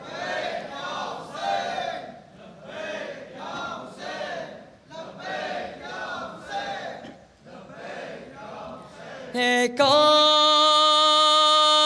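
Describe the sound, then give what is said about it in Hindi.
A crowd shouts the slogan response 'Labbaik ya Hussain' in unison at a religious gathering, with many loud, rhythmic chanted bursts, followed by a steady sustained tonal drone near the end. “उससे पहले मेरे इन नारों का जवाब दीजिएगा। लब्बैक या हुसैन,”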